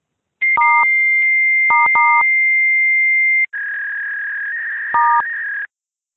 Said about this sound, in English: Please dial the 10-digit mailbox number of the person.